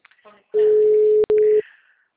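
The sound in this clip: A telephone line tone sounds while a call is being placed: one steady, even-pitched beep lasting about a second, a very brief break, then a shorter return of the same tone. A faint voice is heard just before it.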